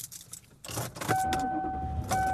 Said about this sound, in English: And I am driving home.